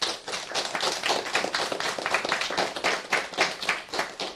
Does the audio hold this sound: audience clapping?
yes